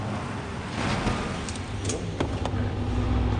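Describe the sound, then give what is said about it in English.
A car pulls into a garage with a low, steady engine rumble that grows a little fuller as it moves. A few brief clicks and knocks sound over the drone. “A car pulls into the garage, and Johnny gets out.”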